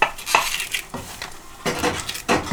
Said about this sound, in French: Comment il faut les couper? On les coupe dans la longueur ou dans la largeur? Dans la largeur, oui.